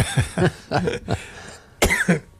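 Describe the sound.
Coughing from a man after a flake of Danish pastry went up his nose: a run of sharp, harsh coughs, then a short pause and a final pair of coughs.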